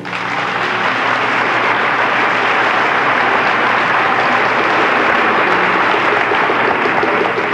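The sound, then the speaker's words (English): A studio audience applauds in a dense, steady wash of clapping that stays at an even loudness from start to finish. “And what a nice reception from our studio audience.”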